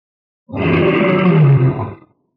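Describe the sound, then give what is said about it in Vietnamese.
An old lion roars loudly in one long, deep, rough roar lasting about one and a half seconds. It starts abruptly and then fades out, alone with no other sound. “Lão sư tử rống to”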